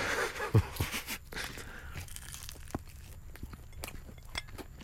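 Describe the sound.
Biting and chewing of a pork-flavoured food: a few crisp crunches near the start, then softer, steady chewing noises that continue alone at low level.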